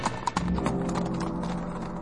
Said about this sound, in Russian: Примчался конь к Ивану и стал чудо-юдо копытами бить.